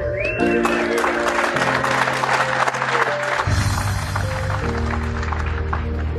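An audience applauds to welcome a guest at the United States Air Force Academy. The steady, loud clapping runs throughout under sustained music chords that shift in steps.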